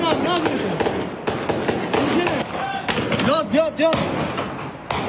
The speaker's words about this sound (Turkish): Peşi sıra ateşlenen silahlar ve yaşanan çatışma anlarını bölgedeki inşaat işçileri saniye saniye kaydetti.